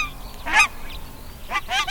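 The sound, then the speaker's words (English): Nene, the small Hawaiian goose, honking at a wildlife refuge of shallow ponds: a few nasal honks, one early and a quicker cluster later, fairly faint over a low, steady background. “And here, we come face to face with the nene, a small goose found nowhere else in the world but Hawaii.”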